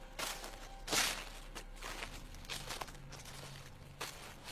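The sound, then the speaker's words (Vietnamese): Footsteps rustling and crunching through dry leaves: several soft, irregular steps, faint and heard alone. “Có tiếng bước chân xào xạc dẫm trên lá khô đi đến.”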